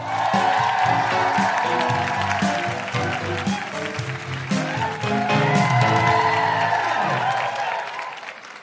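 An audience at a live comedy show in Canberra claps and cheers to welcome the evening's two hosts. The applause stays loud and dense with scattered whoops throughout, then begins to thin and fade near the end.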